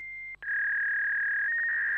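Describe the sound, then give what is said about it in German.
A fax machine in a city office emits a steady, high electronic tone for about two seconds. It breaks off briefly near the start, then resumes and warbles slightly at the end. “kannst du mal ans Faxgerät gehen?”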